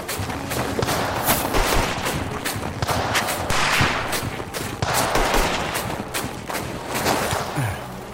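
Rapid gunfire in an exchange of fire in snow among rocks: many loud, sharp shots and bursts crackle without pause, dense and overlapping, with no voices.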